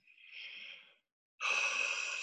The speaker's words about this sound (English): So everyone take a deep breath.